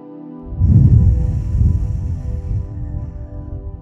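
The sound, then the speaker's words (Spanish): A slow, deep breath drawn in through the nose and let out through the mouth during a guided relaxation, a soft airy rush that swells and then fades over steady background tones. “Ahora respira profundamente por la nariz y exhala por la boca dos veces.”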